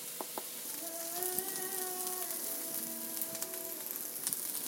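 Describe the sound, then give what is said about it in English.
Onions sauté in a pan with a faint, steady sizzle, a continuous hiss with light crackles and pops running throughout, no voices present. “I'm not going to make you listen to 5 minutes of me sauteing onions.”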